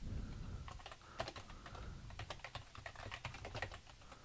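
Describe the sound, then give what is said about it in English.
Keys clack on a computer keyboard in quick, irregular bursts of sharp clicks over a faint low hum. The typing is quiet and carries no speech. “Let's say value and type in CVV just to make it more clear.”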